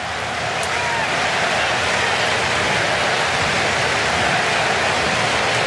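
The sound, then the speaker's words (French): A Canadian crowd roars at a football match in Vancouver against Switzerland, making a dense, steady wash of cheering noise that stays loud and even throughout. “Le public canadien qui donne de la voix, évidemment, à Vancouver.”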